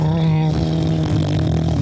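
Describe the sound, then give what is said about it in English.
A voice imitates a motorboat engine as a cell phone ringtone, a steady, low buzzing drone held at an even pitch without a break. “So we're just going to record cell phone toads. Okay, motorboat.”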